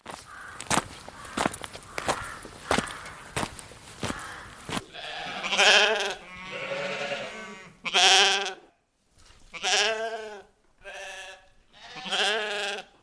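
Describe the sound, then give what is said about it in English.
Sheep bleat in a barn on a farm with livestock, several drawn-out, wavering calls following a stretch of shuffling footsteps at the start. “We're in the barn at the home farm at Heligan”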